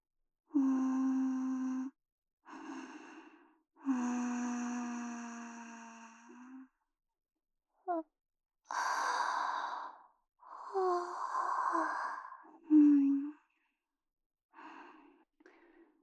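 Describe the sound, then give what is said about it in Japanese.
A person yawns repeatedly: a few long, drawn-out, voiced exhalations with breathy sighing tails, separated by short silences, fairly quiet and unaccompanied. “さっきからあくびばかりごめんよ。”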